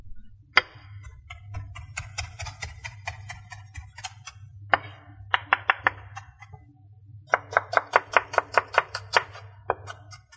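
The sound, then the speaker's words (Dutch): A chopping knife cuts parsley and onion on a board in quick runs of sharp, clicking strokes. There are many rapid taps in several bursts over a low steady hum. “Nou, de peterselie en de ui zijn inmiddels al onder het hakmes gegaan”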